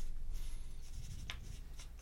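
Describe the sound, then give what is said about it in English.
Pencil scratching on paper as people write, a few brief, faint strokes over a quiet background. “I hear a lot of writing going on.”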